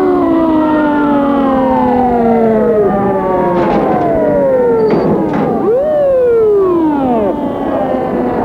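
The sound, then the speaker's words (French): An ambulance siren wails in loud, long sweeping tones that rise and fall. Several wails overlap and carry on steadily for about eight seconds, with no talk. “On a appelé une ambulance.”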